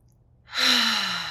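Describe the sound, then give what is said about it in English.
A single deep breath drawn in slowly and evenly during a guided grounding exercise, soft at first, then swelling into a steady, airy inhalation. “So, how about we all just together take a deep breath or two and settle into our hips”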